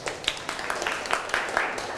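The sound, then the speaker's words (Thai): Children clap for their classmates during a lesson with their teacher, making a brisk, uneven patter of many hand claps at moderate loudness, with sharper individual claps popping out now and then. “ปรบมือให้กับเพื่อนๆทุกคนหน่อย”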